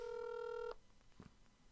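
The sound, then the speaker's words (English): A steady telephone tone signals an incoming call, a loud multi-pitched hum holding evenly before cutting off abruptly, followed by a soft thump and faint background noise. “They're calling us right now. We're waiting to answer.”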